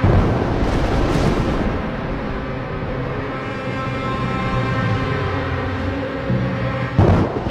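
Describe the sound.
Thunder with lightning in a horror film's attic scene: a loud, broad rumble that opens strongly and slowly fades, then a fresh sharp crack near the end.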